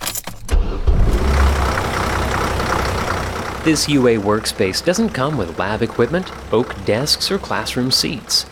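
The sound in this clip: A university shuttle bus drives on the University of Alabama campus, its engine giving a steady low rumble with a thump near the start. A voice soon begins speaking over the ongoing engine drone.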